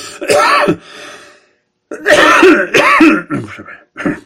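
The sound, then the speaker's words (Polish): Throat clearing and coughing from a person choking mid-speech: a few harsh, raspy bursts, a brief silent gap, then a longer run of loud hacking coughs and rough clearing. “przepraszam, duszę się”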